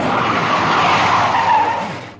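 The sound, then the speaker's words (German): A car brakes hard and skids, making a loud, sustained tire screech that holds steady and then fades out at the end, with no voices. “Drück doch die Bremse runter”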